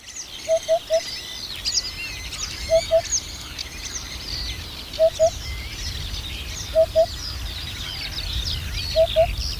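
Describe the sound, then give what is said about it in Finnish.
Birds sing on a windy, rainy early-summer midday at a golf course in Kotka, Finland: many overlapping high chirps and trills continue throughout over a steady low rumble of wind gusts. “Ei, en ole paikalla lentävien golfpallojen vuoksi, olen paikalla lintujen vuoksi.”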